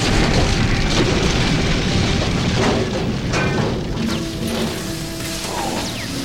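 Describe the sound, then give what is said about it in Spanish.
A dramatized spaceship crashes into a sugar cane plantation: a sustained, loud, roaring rumble of impact with scattered whistling and clanking tones running through it. “Lilo no sabía que la estrella fugaz era en realidad la nave espacial de 626, que se había estrellado contra una plantación de caña de azúcar no lejos de allí. Tras el terrible impacto de la nave contra la Tierra,”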